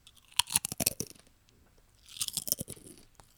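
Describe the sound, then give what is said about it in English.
Potato chips from an opened bag crunch in crisp, crackly bites, a quick cluster of loud crunches, a pause, then a second burst, ending with one faint click. “Just crinkle, crinkle, crinkle. You guys want to hear some chip ASMR?”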